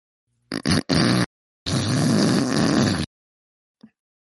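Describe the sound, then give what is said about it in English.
A person hawks up phlegm in a few harsh, rasping throat bursts: two short hacks, then a longer gravelly scrape, followed by a faint click. “No, she was just hawking a loogie.”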